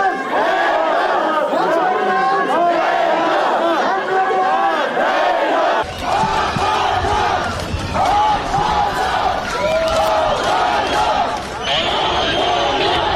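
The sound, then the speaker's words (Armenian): A crowd of supporters outside a constitutional court shouts and cheers at a court decision, with many overlapping raised voices and chant-like calls that stay loud for the whole stretch. “Մարտի 1-ի գործով մեղադրյալ Ռոբերտ Քոչարյանի աջակիցներն այսպես արձագանքեցին սահմանադրական դատարանի որոշմանը։”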